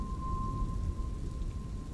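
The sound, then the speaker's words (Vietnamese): Heavy rain pours down in a steady, dense hiss over a low continuous rumble, fairly quiet and unbroken throughout, with no distinct thunderclap standing out. “Sau mấy hồi sấm đì đùng thì một trận mưa nặng hạt trút xuống.”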